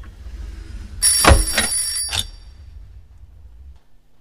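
An old-style telephone bell rings in a short metallic burst of a few bright strikes over a low background hum, then the hum fades to quiet.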